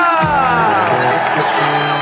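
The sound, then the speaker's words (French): Accordion in German carnival Schlager music, loud and continuous, with layered sustained tones and brassy harmonics over a steady beat, and crowd noise mixed into the music. “Ah, et l'accordéon, on l'entend. Oui, on l'entend bien. Ah, ça, c'est le Schlager qu'on aime, ça.”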